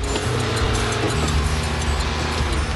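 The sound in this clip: Bus engine as the bus drives off, a loud, dense roar and low rumble that holds steady and unbroken from start to finish.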